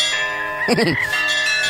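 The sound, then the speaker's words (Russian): Church bells ring on a Sunday in a brief, bright clang of overlapping bell tones over a steady, sustained tonal background. “Маэстро, сегодня воскресенье. Будьте добры, колокольный звон.”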